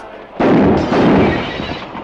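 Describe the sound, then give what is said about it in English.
A gunshot blasts biscuits and shoots out a window: a sudden loud blast, a second burst close behind, then a dense noisy roar that holds for over a second before slowly easing off. “He blasts the biscuits and shoots the window out.”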